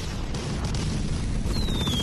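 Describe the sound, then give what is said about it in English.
Continuous rumbling explosive noise comes from Enemy Attack, an audio game that uses stereo sound to signal threats. Near the end, a thin, high whistle glides slightly downward. “blind people exist at the margins of the game world, playing text-based adventure games and audio games like Rail Racer and Enemy Attack, which we're hearing now.”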